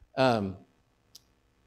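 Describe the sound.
A single short, sharp click of a presentation being clicked through to the next slide, faint and alone, just after a brief spoken word.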